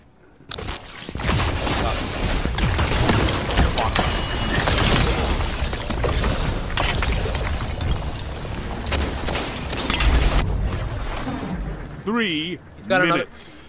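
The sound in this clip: Gunfire in the video game FiveM (GTA V) during a team match: shotgun blasts and other shots crack and overlap in a loud, dense barrage, with cracks and clatter mixed in. People talk throughout, and the shooting dies away into voices at the end.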